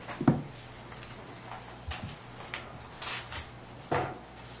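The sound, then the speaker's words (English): Two large boxes and an envelope being opened, heard as a few scattered thumps, knocks and papery scrapes separated by quiet gaps, fairly soft and with no talk. “two rather large boxes and an envelope. And I'll open these up and turn them over to Terry”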